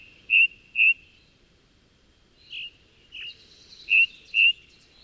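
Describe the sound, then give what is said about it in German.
A ring ouzel sings on the Brocken. Its clear, high whistled notes come in pairs and short groups, six in all, with quiet pauses between them. “Allerdings müssen sie schon sehr früh aufstehen, denn die Ringdrossel singt am liebsten richtig knackig früh morgens,”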